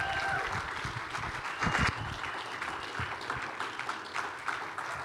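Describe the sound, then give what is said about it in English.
An audience applauds and claps during a church service, welcoming a pastor: dense, steady clapping that holds throughout, with a brief louder surge partway through. “Come on, can we just keep putting our hands together?”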